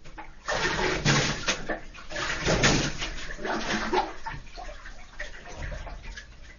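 Bath water sloshes and splashes in a filled tub as an irregular, rushing wash that swells and settles over several seconds.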